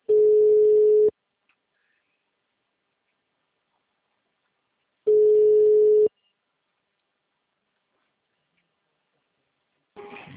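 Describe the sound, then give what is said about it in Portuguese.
Telephone line tones follow a dropped call: two loud, steady beeps of about one second each, separated by roughly four seconds of silence. Another burst of sound starts at the very end. “A ligação do senhor caiu.”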